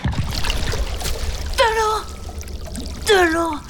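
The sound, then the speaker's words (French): A fishing net plunged into seawater and lifted back out, with water pouring and trickling off it in a steady wash, while two high, falling cries ring out over the splashing. “le voilà qui plonge son épuisette dans l'eau. Il la remonte.”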